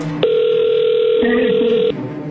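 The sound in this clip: A telephone line tone heard while a number is dialed: one steady, mid-pitched electronic tone holds for more than a second and a half, over faint, murmuring voices.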